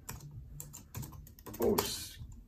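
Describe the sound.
Someone types a comment on a computer keyboard in a steady patter of soft keystrokes at an uneven pace, with a denser, louder flurry of clicks toward the end.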